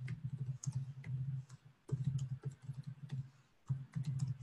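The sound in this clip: Quiet computer clicks while saving an entry: several sharp, faint taps spaced irregularly across the stretch, separated by soft low humming bursts and brief pauses.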